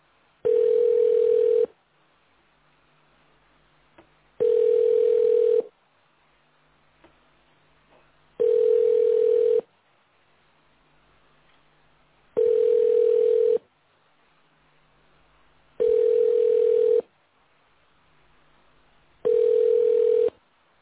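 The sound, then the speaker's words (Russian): Telephone ringback tone heard while calling a subscriber who does not pick up: six steady, mid-pitched beeps, each a little over a second long, separated by even pauses of about three seconds of near silence. “Продолжаем дозваниваться. Абонент не берет трубку.”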